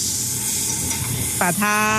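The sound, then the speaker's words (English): Egg and wheat flour dough for danbing sizzle on a hot griddle with a steady, bright hiss that runs throughout, with a voice speaking briefly at the end. “Why don't I make you one? First, an egg, then wheat flour dough.”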